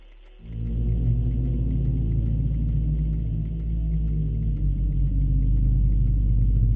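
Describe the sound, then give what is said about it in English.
A rickety auto rickshaw engine drones along an unpaved, potholed road to Bhangarh, starting after a brief quiet moment and then holding a loud, steady, low rumble with a gritty mechanical buzz throughout. “The auto rickshaw driver encouraged his rickety vehicle to dare the potholes and dips on the unpaved road to Bhangarh.”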